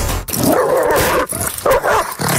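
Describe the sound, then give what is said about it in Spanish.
A dog snarls and barks as it attacks and bites a person, loud and nearly continuous, broken only by a few brief pauses. “Ese es el sonido de un perro mordiendo a una persona.”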